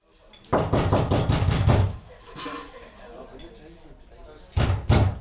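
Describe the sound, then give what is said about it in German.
Someone knocks on a small door: a quick run of many sharp raps, a quieter stretch, then a few more knocks at the end. “Erneut wurde jetzt an die kleine Tür geklopft.”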